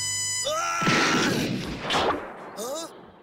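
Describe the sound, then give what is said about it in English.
A loud blast as a farmer fires a gun at Raditz in a Dragon Ball Z scene. The sharp burst is framed by voices just before and after. “So he shoots Raditz in the face.”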